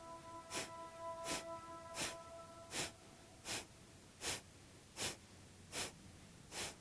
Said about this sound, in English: So take a deep breath in. Kapalabhati, let your spine be nice and free.